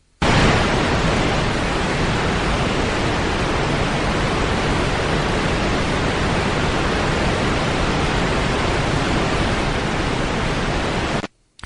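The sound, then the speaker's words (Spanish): Waterfall-like noise made for recording in open places: a dense, unbroken rushing hiss like a cascade, loud and constant for about eleven seconds, then cutting off abruptly. “Vamos a escuchar un sonido que se llama waterfall, o lo que es lo mismo, es como si estuviéramos escuchando una cascada.”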